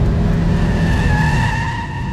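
Car tyres screech in a hard braking skid on a dark green Jaguar. The loud squeal is continuous, with a steady tonal whine over rough noise for about two seconds, and no impact is heard.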